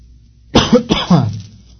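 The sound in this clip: A person coughs from a dry throat: three short, harsh coughs in quick succession, then quiet.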